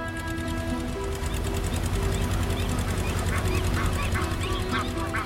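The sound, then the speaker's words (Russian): Geese on water honking: a few nasal calls in the later part, partly masked by a loud, steady motor drone from a hang glider. “Гуси начинают плыть за ним.”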